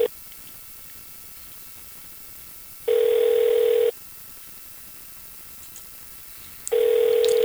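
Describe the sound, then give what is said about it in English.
Ringback tone on a telephone call that goes unanswered: two steady, mid-pitched ring tones, each lasting about a second with a long silent gap between them, sounding over faint line hiss. “Did I dial the right number?”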